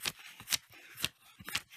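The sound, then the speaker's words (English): Paper money being handled, with a few crisp, dry rustling bursts of bills riffled at a loose, uneven rhythm, each a short papery flutter with quiet gaps between. “You hear that? That's the sound of money.”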